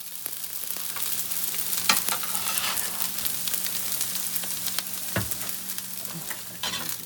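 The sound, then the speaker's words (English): Pupusas fry in a home kitchen with a steady, crackling sizzle of hot oil, sprinkled with scattered sharp pops and clicks over a faint low hum, staying fairly quiet and even throughout. “That's the sound of pupusas being made out of one of San Diego's micro-enterprise home kitchen operations, better known as Miko's”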